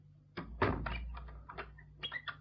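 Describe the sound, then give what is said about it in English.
A door being closed with one dull, low thump, followed by a few fainter knocks and rattles, quiet overall. “Here, close that door.”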